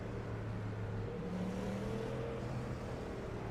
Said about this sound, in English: I'm just warming up the tires a little bit. Getting a little bit of heat to them.